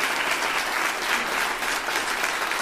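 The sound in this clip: An audience applauds a speaker, a dense, even patter of clapping that holds steady at a moderate level throughout.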